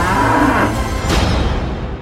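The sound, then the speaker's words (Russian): Zombie cows mooing in a video game: a loud, harsh, drawn-out moo that holds steadily for about two seconds, with no talk. “Коровы-зомби.”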